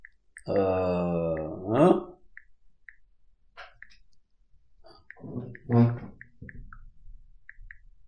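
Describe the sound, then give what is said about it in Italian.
Many soft, short tick sounds come from typing a message on a smartphone's on-screen keypad, scattered irregularly between stretches of a low voice. “su questa barra mi si attiva il tastierino e quindi io nel tastierino praticamente scrivo il mio messaggio, per cui voglio scrivere a Michela”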